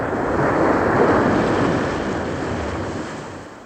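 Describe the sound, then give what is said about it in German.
Sea waves wash over moonlit open water as an aircraft ditches, a loud, steady, roaring surge that swells early and then slowly fades, with no voices. “Dann setzte die Maschine auf dem Wasser auf.”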